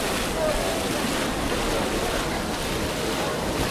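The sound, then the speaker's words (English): A water fountain making an odd noise, a loud, continuous rushing gush of water that fills the whole clip without a break. “Here's the fountain. Yeah, making that funny noise that I was trying to record before. We have to wait a few minutes before we hit it again. But here it goes, here it is. I think it's getting faster and faster now.”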